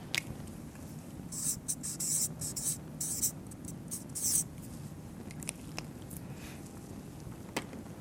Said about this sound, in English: Yeah, Ephesians 2:10. I'll write that down as well.